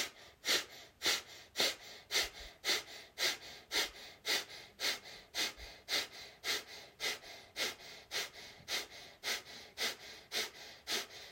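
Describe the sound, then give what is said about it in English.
Breath of fire breathing exercise: many rapid, forceful exhalations pumped in a steady, even rhythm, each a short breathy puff, continuing without pause throughout. “So we'll do breath of fire for the next minute here. Let's take in a deep inhale. And begin.”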